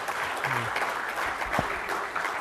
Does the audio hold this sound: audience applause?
yes